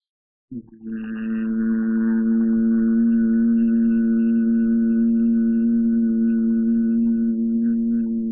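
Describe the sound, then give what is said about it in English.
Closed-lip humming after a deep breath: a single steady, low, buzzing hum begins abruptly and is held evenly at the same pitch for nearly eight seconds, alone with no talk. “the mer sound, the humming sound”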